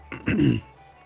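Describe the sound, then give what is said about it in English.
A single short throat clearing, a brief rough rasp that swells quickly and fades within about half a second. “Clear that throat.”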